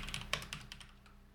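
Faint typing on a computer keyboard during an online game, a few quick, soft keystroke clicks over a low steady hum, with no talk.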